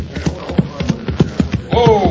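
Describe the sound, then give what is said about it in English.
Horses clop along in a steady, even rhythm of hoofbeats as they are reined in to a stop. A man's voice calls out briefly at the end. “Well, we better rest these horses, Sheriff. That's just what I'm thinking, Deputy. Whoa, boy.”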